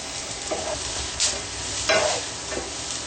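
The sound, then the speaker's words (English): Cashews and peppers fry in a pan with a soft, steady sizzle. A few faint pops break through as the cashews start to brown. “I hear the cashews starting to pop, which means we're getting close to being done.”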